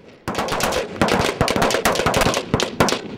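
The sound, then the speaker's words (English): Rapid gunfire on a shooting range: many sharp, loud shots crack out in dense, irregular bursts with barely a pause between them. “I fired three rounds. Three rounds.”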